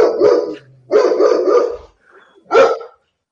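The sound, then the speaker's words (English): A dog barks loudly and alone in three bursts, the middle one longest, with short quiet gaps between them. “I'm pretty sure your dog just agreed with everything you just said.”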